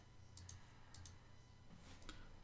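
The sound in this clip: Numbers are typed in with faint, light clicks, a few quick taps coming in close pairs with short pauses between them.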